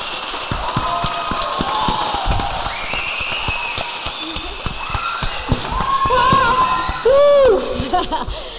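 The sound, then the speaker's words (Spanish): A live audience claps, cheers and whistles at a recorded show. Sharp, scattered claps keep up under a crowd murmur, and several rising whistles come later, ending in one loud whistle near the end. “A ver, que es noti aquest públic.”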